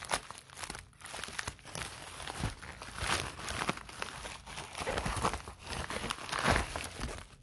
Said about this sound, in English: So that one's perforated also, so I'll just tear that open.